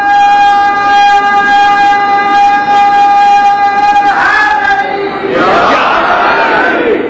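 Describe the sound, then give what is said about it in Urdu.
A crowd at a religious gathering chants slogans about religious leadership: a long, sustained unison tone holds for about four seconds, then gives way to louder, rougher mass voices. “مجھے بڑی خوشی ہوئی اس نعرے کی، مرجعیت کے مسئلے پر نعرے لگے”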